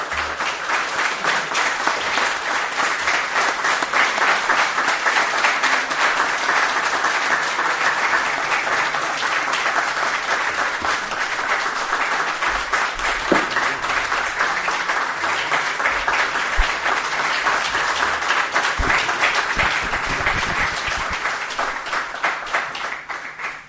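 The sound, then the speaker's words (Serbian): Audience applause at the close of a poetry evening: a dense, steady wash of many hands clapping, loud and sustained throughout, fading slightly at the very end. “ovim aplauzom ćemo završiti radijski prenos večeri poezije Kajoko Yamasakija.”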